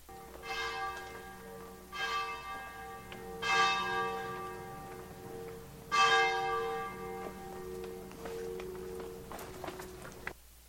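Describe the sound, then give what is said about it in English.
Church bells ring in the town of Frascati while footsteps pass along cobblestone alleyways; several resonant bell strikes swell and fade at a moderate level, followed by light, scattered taps. “Oh, this is Church Bells in Frascati.”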